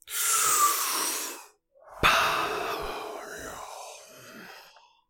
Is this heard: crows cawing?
no

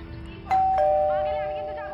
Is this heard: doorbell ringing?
yes

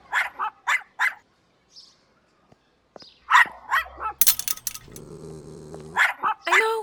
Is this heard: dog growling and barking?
yes

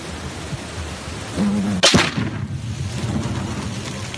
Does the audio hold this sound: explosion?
yes

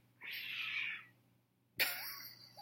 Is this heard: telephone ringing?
no

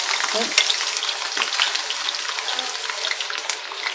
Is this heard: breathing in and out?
no

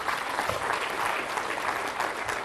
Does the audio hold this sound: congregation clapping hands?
yes

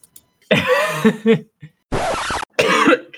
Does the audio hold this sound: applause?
no

